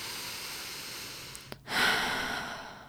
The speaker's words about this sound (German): Wir nehmen einen tiefen Atemzug